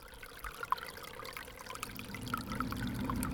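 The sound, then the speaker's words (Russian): A spring stream of melting snow trickles and gurgles softly and without a break. The low rushing of the flowing water swells a little toward the end. “А попробуйте угадать этот звук. Мы часто слышим его весной, когда начинает таять снег. Вы догадались, что это ручей?”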